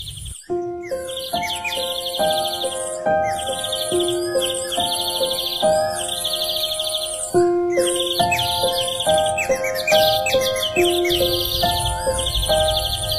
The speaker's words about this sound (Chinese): 在中国皇帝花园的树林里住着一只夜莺，他的歌唱得非常美妙